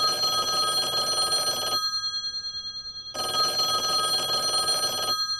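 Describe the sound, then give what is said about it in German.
A telephone rings twice, the call that Swiss ice hockey players hoped for and waited on. Each bright, trilling ring lasts under two seconds, with a short pause between them over steady background noise, and no talk. “Das ist das Telefon, wo die Schweizer Eishockeyspieler darauf gehofft und gewartet haben.”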